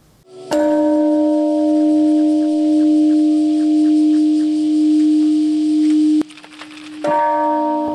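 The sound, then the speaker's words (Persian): Peace bells ring at the peace memorial park in Hiroshima on August 6: a deep, resonant bell tone rings out and hums steadily for several seconds, then fades and is struck again near the end. “زنگ های صلح به صدا درآمدند در پارک صلح روز شنبه 6 اوت.”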